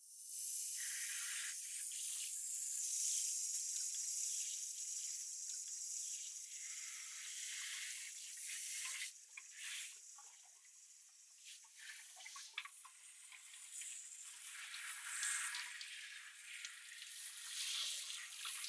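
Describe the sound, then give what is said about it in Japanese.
A lukewarm shower spray rinses a head of hair with a soft, steady high hiss that thins and swells at times. A few brief splashy spikes break through. “もし平気なら、まずはシャワーで頭を流していきます。ぬるめのお湯なので、多分平気なはずかと。うん。では、流しますね。”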